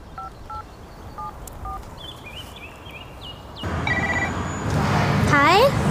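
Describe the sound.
Touch-tone dialing of a telephone number: a few short, clear paired beeps at uneven intervals, standing out over a soft background.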